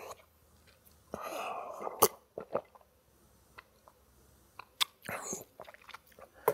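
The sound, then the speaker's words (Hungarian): Someone takes a drink of a favorite beverage, with faint sipping and swallowing sounds and a few small clicks and taps, quiet throughout. “Bocsánat, iszom a kedvenc.”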